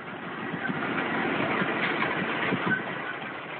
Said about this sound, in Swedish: där körde kolodlaren Fredrik Aronsson iväg med radrensaren Robocrop